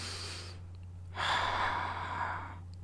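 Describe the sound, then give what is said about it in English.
Slow, calm breathing, demonstrated the way it is used while grappling close to an opponent's ear: a soft, airy short breath, then a pause, then a longer, fuller breath, quiet and unhurried with no talking. “And I'll just start breathing real slow, like,”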